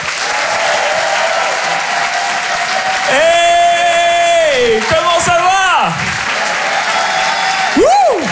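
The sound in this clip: An audience gives loud applause and cheers as a comedian is introduced on a comedy show. Dense, steady clapping runs throughout, with whoops and shouted cheers rising over it around the middle and again near the end.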